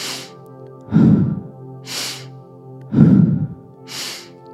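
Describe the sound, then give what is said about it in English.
Deep, audible breaths from an active breathwork exercise. Airy, hissing inhales alternate with heavier, lower, sighing exhales in a slow, steady rhythm: three inhales and two exhales. “And now starting with the halo active breath.”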